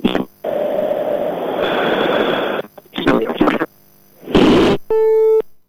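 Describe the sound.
A telephone busy tone sounds after a call is cut off: loud bursts of rushing line static and noise, then a steady electronic beep entering near the end.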